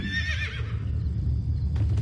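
A horse whinnies loudly in a brief, wavering high-pitched call at the start, followed by low rumbling and a couple of sharp hoof-like knocks near the end.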